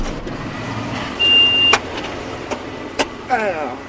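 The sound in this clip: A tractor engine on a French cereal farm gives a steady low rumble, with a few sharp brief clicks and a short whining tone rising over it.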